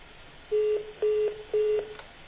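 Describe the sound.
Keypad tones as a telephone number is dialed: three short beeps, evenly spaced and at the same pitch, then a fainter fourth, over low line hiss.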